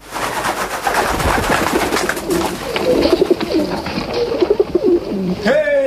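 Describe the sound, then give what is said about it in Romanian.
Pigeons cooing, a run of soft, low, rounded coos repeating in a loose rhythm, with a steady murmur of other sound beneath. “Noi, porumbei, avem aripi și zburăm cu viteza vântului”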